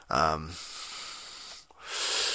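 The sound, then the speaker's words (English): A tired gamer breathes heavily while catching his breath: one sharp, voiced gasp is followed by a long hissing exhale, then another breathy rush of air. “you can fucking hear me just fucking like, fucking catching my breath and shit, and just fucking like, I don't know, tired and whatever”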